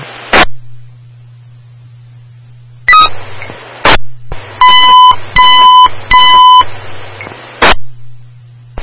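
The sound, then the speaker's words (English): Fire dispatch alert tones for an engine company: three short, steady, high-pitched beeps in a row. Sharp clicks come before and after them, over a constant low hum. “Alarm for engine 8, zone 52606, Bulge, Cross of Willow, 4995 East Bulge.”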